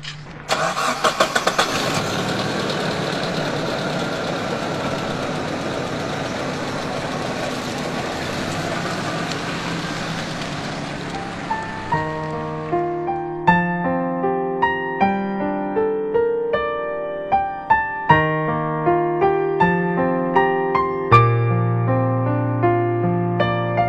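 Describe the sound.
Car engine starting and running as a driver sets off: a steady, rumbling noise holds for about ten seconds before fading out, and music with distinct notes then takes over.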